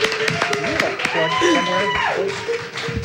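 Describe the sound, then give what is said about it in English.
An audience applauds at an election-night forum as a theater troupe takes the stage, with scattered claps mixed with rising and falling cheers and voices. “Ladies and gentlemen, big round of applause for the Theater of Public Policy as our election computer here.”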